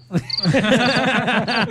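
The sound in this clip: A cricket chirping sound effect gives a loud, rapid pulsed trill that repeats steadily for under two seconds.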